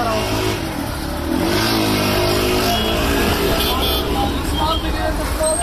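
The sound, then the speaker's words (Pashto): Traffic noise of cars coming and going on city streets in Afghanistan on the first day of Eid al-Fitr: a steady, loud engine drone with revving vehicles passing, and voices mixed into the din. “په خارونو کې د موټرو د تک را تک شور”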